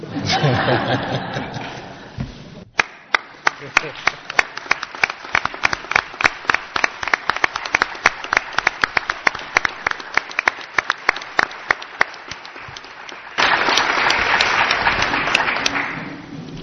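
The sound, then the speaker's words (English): Applause for an honoree at a board meeting: a round of crowd clapping, then slower scattered individual claps, and finally a second full burst of applause. “Let's give him a hand.”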